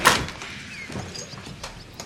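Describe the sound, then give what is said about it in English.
A sticky door is pulled open: a sharp, loud scraping burst at the start, then a quieter low rumble and faint rattles as it swings. “He pulls open the sticky door.”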